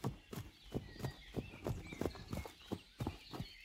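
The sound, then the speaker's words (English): Hooves of a trotting pony clip-clop in a steady, quick rhythm, with many even hoofbeats sounding clearly throughout. “The father trotted back to where Dapple Gray and the others stood.”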